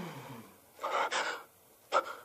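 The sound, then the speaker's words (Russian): A deep, sharp breath drawn in by a man as he abruptly straightens up: a breathy rush of air, then a shorter, quick gasp, heard alone without talk. “Резко выпрямляется. Делает глубокий вдох.”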